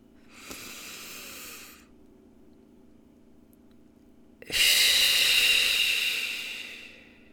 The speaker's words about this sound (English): what I want you to do with me right now is take a nice deep breath.